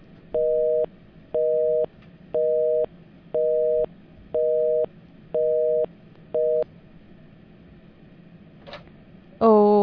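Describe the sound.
A telephone busy tone from a failed caller connection sounds as seven evenly spaced, loud beeps at a steady mid pitch, the last slightly shorter. A brief noise follows, then a voice cuts in at the very end.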